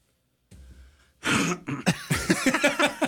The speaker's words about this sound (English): I mean, that had the full wind-up and everything. Yeah, it was like the inhale, the whole thing, right into the microphone. So there you go. That's a phlegm too for you,